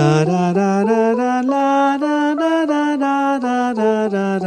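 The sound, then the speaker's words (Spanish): A Dorian minor scale rings out on a melodic instrument with a full, sustained tone. Evenly spaced notes rise step by step to the top, then walk back down. “Pero ellos utilizan una variación que se llama la escala menor dórica, que suena así.”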